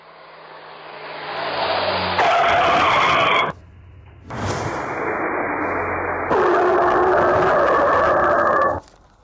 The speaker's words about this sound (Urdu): دکھائیے وہ جیپ والا واقعہ جس کے اندر وہ شخص گویا ایسا لگ رہا ہے کہ گاڑی کے نیچے آ گیا۔